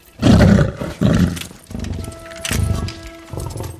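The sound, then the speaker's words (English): A lion roars while striding up a city sidewalk. It gives a few loud, deep, rough bursts, with faint steady tones running underneath. “The police officers turn their weapons on a lion striding up the sidewalk.”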